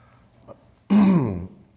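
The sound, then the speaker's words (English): Throat clearing from a woman: one loud, rasping, voiced clear lasting about half a second, preceded by a faint small sound and followed by quiet. No speech. “Sorry, and of course my throat keeps doing this.”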